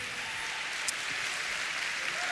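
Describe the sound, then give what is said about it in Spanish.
A church audience applauds in dense, steady clapping that blends into an even wash of sound and stays fairly faint and uniform throughout. “Vamos, si va a aplaudir al Señor, apláudale.”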